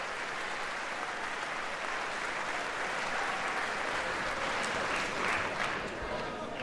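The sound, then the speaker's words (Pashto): Applause from women in the cabinet clapping, a dense, sustained clatter of many hands that holds steady throughout, with a voice speaking over it. “او دا مهال میرمنې په کابینې کې خوشحالي کوي او ډېر زیات لاسونه پړکوي.”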